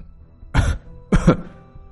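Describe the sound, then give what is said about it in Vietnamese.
A man coughs twice, two loud, short, rough bursts separated by a brief pause, heard alone with no talk. “Anh Hùng ho lên như được mùa.”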